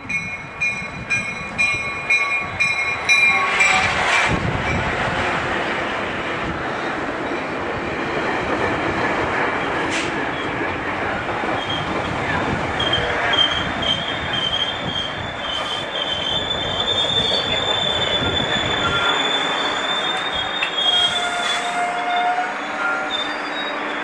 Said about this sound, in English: Now, let's head back home on the GO train, though first it has to arrive.